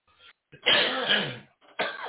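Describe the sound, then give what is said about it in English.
Coughing after taking a hit of smoke: harsh, raspy bursts, with one long, loud, rough fit in the middle and another strong burst at the end. “Every time I take a hit right before I start talking, and they start coughing.”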